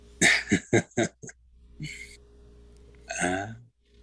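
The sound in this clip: A recorded burp played from a cassette tape: a quick run of four short, throaty bursts and a smaller fifth, then a soft sputter and a longer, rougher belch-like rasp at the end.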